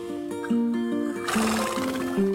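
A domesticated horse neighs outdoors, a loud, quavering whinny that breaks in partway through over steady sustained musical tones.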